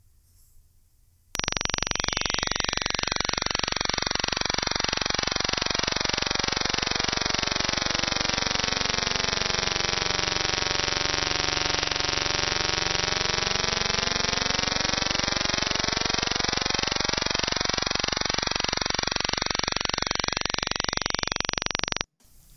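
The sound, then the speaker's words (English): A good fortune tone for meditation plays as a sustained electronic sound that starts and stops abruptly. It lasts about twenty seconds, with layered overtones that swirl inward toward the middle and then spread back out, and it is heard alone. “Meditate on this sound. It's the sound of the good fortune tone.”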